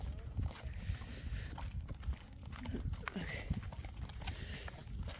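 Hoof clip-clops of a 31-year-old horse walking at a stable, a series of irregular knocking steps over a low rumbling background.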